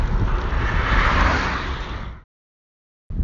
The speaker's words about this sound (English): I've got a 20 mile per hour wind behind me. So I'm absolutely flying along.